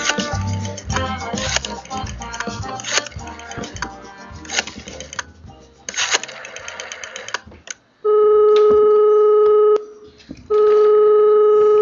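A telephone rings on a radio show's call segment in two long, steady bursts of a buzzing tone separated by a short gap, after a busy stretch of clattering sounds.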